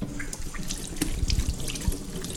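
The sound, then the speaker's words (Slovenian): A tap runs steadily while an aubergine is washed under it, a continuous splashing water hiss with a few low thuds and knocks against the sink. “To vržem proč in melancan seveda najprej umijem.”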